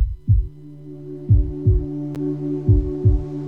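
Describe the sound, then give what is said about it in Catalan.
Heartbeat thumps: low, soft thuds arrive in lub-dub pairs at a steady pace, about five beats in all, over a faint continuous low hum with no voices. “Sents el cor? Sents el cor? Batega fort, oi?”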